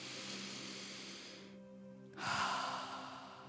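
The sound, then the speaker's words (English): A deep breath is drawn, a single soft inhale after a brief quiet moment, faint over a low steady hum. “Let's take a mighty breath and do that again.”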